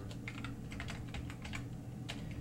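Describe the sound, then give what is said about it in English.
Someone types a channel name on a computer keyboard in fast, uneven bursts of light key clicks, fairly faint and alone. “I'm going to type in the name of a new channel that will group all of this related media.”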